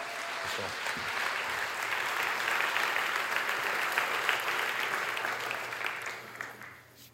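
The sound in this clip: An audience applauds to welcome a speaker to the stage: a dense, steady wash of clapping holds at an even level, then thins and fades out toward the end.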